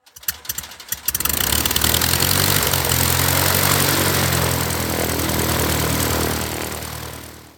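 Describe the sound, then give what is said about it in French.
Cockpit sound of a Tecnam P2006 twin-engine propeller aircraft departing Annecy: a few clicks, then the engines surge into a loud, steady droning roar that holds for several seconds before easing off at the end. “allons donc directement ensemble dans le cockpit du P2006 Mac Bravo au départ d'Annecy.”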